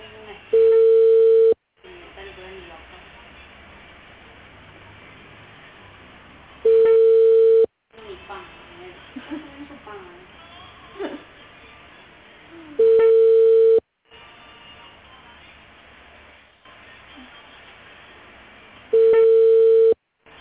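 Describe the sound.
A telephone busy signal sounds as four steady, mid-pitched tones, each about a second long and spaced roughly six seconds apart, with quieter, busier background noise filling the gaps.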